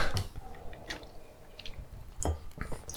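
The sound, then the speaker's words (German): A sip of Gösser Märzen beer: quiet, wet mouth sounds with a few short slurps and soft clicks, scattered unevenly with no talk. “Ich nehme nur mal einen Schluck, damit ich mir noch ein bisschen ein Bild machen kann.”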